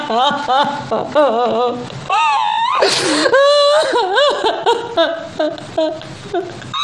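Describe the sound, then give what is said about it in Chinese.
Someone crying, with quivering sobs, whimpers and wailing cries that waver in pitch, loud and almost continuous throughout. “你看你哭什么哭啊？”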